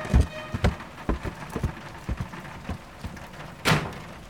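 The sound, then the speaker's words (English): Footsteps of a man walking upstairs. Many dull, thudding treads fall in an uneven rhythm, with one louder, heavier step near the end. “Good night, honey. And he walks upstairs.”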